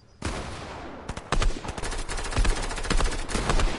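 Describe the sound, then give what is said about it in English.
Rapid automatic gunfire in a video game, a dense, nearly continuous stream of sharp cracks and bursts that grows louder after the first second and keeps going to the end. “Oh, they shot me. Yeah, I'm trying to shoot them.”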